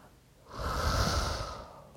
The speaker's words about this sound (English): We're going to pray over it. We're going to take a deep breath.